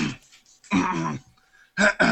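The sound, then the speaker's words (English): A person clears their throat in three rough, raspy bursts: a short first one, a longer harsher middle one, then a final brief rasp after a pause. “Let me clean my throat.”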